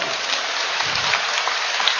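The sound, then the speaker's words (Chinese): Applause from a seated group, a thick, even hiss of many hands clapping that continues steadily throughout. “鼓掌。”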